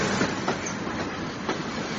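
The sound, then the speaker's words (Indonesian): Runaway train rolling on the tracks, with a steady, dense rumble and a few rhythmic wheel clacks over the rails and no voices. “Kereta ini sudah tidak dapat berhenti lagi.”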